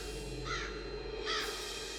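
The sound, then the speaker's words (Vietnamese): A flock of crows circling in the sky over graves gives two harsh caws, about a second apart, above a steady background hum. “từ đâu xuất hiện một đàn quạ cứ bay lòng vòng quanh trên bầu trời kêu gọi thảm thiết”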